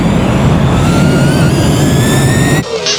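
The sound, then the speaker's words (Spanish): Jet airplane taking off for a flight: a loud, steady roar of engine rush with high whining tones that climb slightly in pitch, then cut off abruptly near the end. “Por favor, abrocharse los cinturones. ¡Abrocharse sus cinturones! El vuelo Soy FM va a despegar.”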